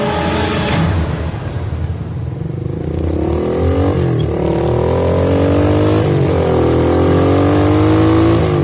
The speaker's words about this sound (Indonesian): Kontan aku langsung menancap gas motorku untuk segera sampai di rumah.